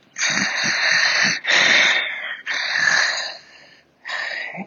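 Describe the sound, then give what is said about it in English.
A person's voice imitates struggled, unhealthy heavy breathing: four long raspy breaths with a hoarse, wheezing whistle, loud and alone, the last one shorter after a brief pause. “The breathing sounded struggled or something. That it just didn't sound the way you would think a healthy person's heavy breathing would sound, kind of like,”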